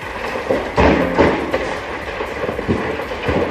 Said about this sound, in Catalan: I això que escolteu és el so de la virulència de les flames.